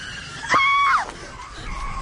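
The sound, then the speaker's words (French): A woman lets out a short, loud, high scream while braking a car sharply. The scream holds steady for about half a second, then slides downward in pitch and stops. “freina brusquement et s'arrêta en hurlant”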